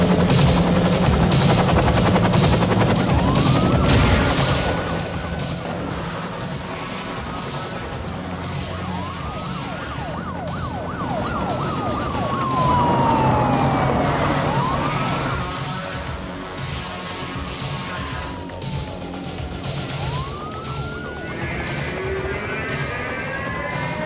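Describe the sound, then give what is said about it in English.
Helicopter flying over a police chase, its loud, steady rotor and engine roar filling the whole clip while police sirens wail and sweep up and down in pitch on top. “Yeah, that's a helicopter.”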